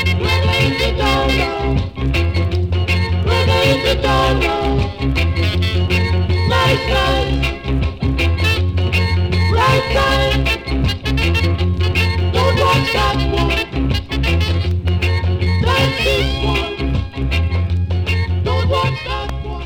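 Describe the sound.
A reggae record plays continuously and loudly, with a steady, repeating bass line and rhythmic chop carrying an even groove for about twenty seconds without talk.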